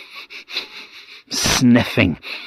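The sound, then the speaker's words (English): A voice imitates sniffing, a furious miser searching for his hidden money: a quick series of short, soft nasal sniffs, then a louder, longer burst of voiced snuffling. “sniffing for his money, but he couldn't find it”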